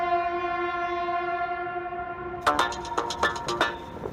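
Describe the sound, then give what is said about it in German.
A Deutsche Bahn Sylt Shuttle train gives a sustained, harmonic horn-like tone, then a run of sharp rhythmic clacks from the wheels on the rails under steady rumbling. “Moin Moin und herzlich willkommen auf dem Sylt-Shuttle der Deutschen Bahn.”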